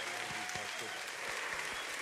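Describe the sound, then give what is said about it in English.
An audience gives a warm welcome at a church gathering with steady applause, a dense, even wash of clapping throughout, while a voice speaks over it. “Would you stand to your feet? Give a warm Substance welcome.”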